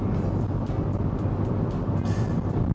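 Continuous road roar and engine drone from a car driving nonstop on a highway, a steady, loud low rumble with faint, regular whooshes passing over it.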